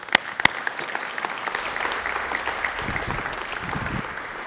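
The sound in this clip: Audience applause welcoming two speakers to the stage, starting with a couple of sharp, distinct claps and swelling into steady, dense clapping that lasts the whole clip.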